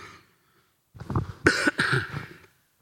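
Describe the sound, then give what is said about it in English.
A person coughs in a short, fairly loud burst of a few harsh coughs, heard alone, with silence before and after. “where's that cough button when I need it?”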